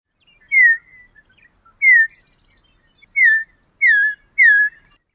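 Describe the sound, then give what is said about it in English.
A Western Meadowlark gives five clear, whistled call notes, each a short slurred phrase that drops in pitch. The notes are separated by silent gaps and come slightly closer together toward the end. “So once again, here are a variety of calls of the Western Meadowlark.”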